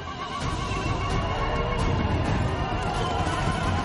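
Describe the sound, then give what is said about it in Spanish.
Horses crossing a river in a science-fiction film scene give a dense, continuous wash of rushing, splashing noise, with horse whinnies and clattering hooves mixed in, steady and loud throughout. “Los caballos cruzan un río.”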